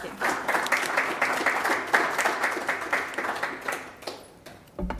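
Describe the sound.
An audience applauds to welcome a speaker at a library event, with dense, steady clapping from many hands for about four seconds before it quickly thins out and stops.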